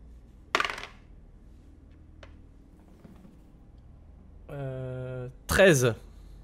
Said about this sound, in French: Refais-moi un dernier jet de perception.